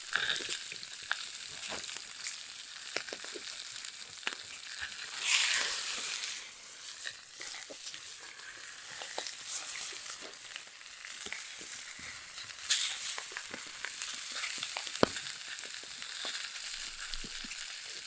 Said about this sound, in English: Get that skin nice and crispy. But that is what we really want, that nice crispy texture. While it's cooking throughout in this nice brown butter that we have going now.